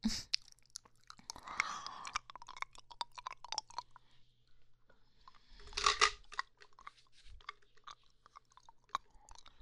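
Chewing a pill gives faint, irregular crunchy bites and soft mastication clicks, alone and quiet, with a couple of louder crunching bursts among many small ticks.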